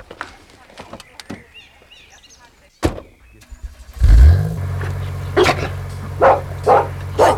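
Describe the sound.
A car engine starts up and then runs with a steady low rumble. Before it starts come a few sharp clunks. Over the engine, a dog barks several times in short, loud yelps.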